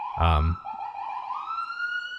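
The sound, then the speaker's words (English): An emergency vehicle siren sounds: a brief low, blaring burst, then a steady wailing tone that slowly climbs in pitch. “You always got those crazy sirens.”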